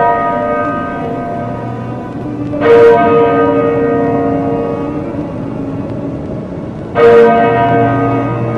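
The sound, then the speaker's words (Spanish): A parish church bell tolls twice in slow succession. Each heavy strike swells into a long humming resonance that carries on until the next blow. “el diablo repica a todo gusto la campana que robó en nuestra parroquia”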